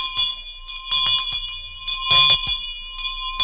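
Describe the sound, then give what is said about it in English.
A bell rings with bright, sustained metallic tones, struck several times in an uneven pattern while its overtones linger between the strikes, with no voices present. “General Electric rings the bell with a wonderful contest for you.”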